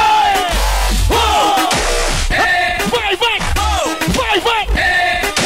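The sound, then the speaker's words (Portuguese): A crowd shouts and yells at a live pop concert, many voices rising together in loud, continuous overlapping cries with repeated swells and no clear words. “Põe a mãozinha pra cima e grita.”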